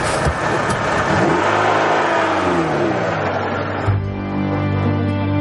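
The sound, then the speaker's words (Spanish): A car engine revs and accelerates as the car drives off. Its droning pitch climbs and shifts, then settles into a steadier, lower hum toward the end. “Se van y Andrés se monta en el coche.”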